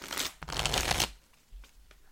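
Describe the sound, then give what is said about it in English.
Tarot cards with decent cardstock are shuffled and flipped through: a dense, rapid riffling burst of flapping card edges, then a few softer, isolated flicks as single cards are turned. “Yeah, it's nice to flip through this like mindlessly.”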